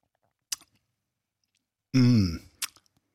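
Mouth sounds of someone tasting a milky vegan yogurt alternative: a sharp lip smack, then a short voiced hum of appraisal, followed by another smack and a few faint clicks.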